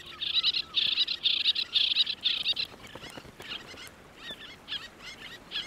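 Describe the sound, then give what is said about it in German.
Little tern calls at a breeding colony near Grömitz on Lübeck Bay: a rapid run of high, sharp chirps repeated in quick bursts, then scattered, fainter single calls. “Bei Grömitz brüten die letzten Zwergseeschwalben der Lübecker Bucht. Zum Brutwechsel bringt das Männchen stets ein kleines Geschenk.”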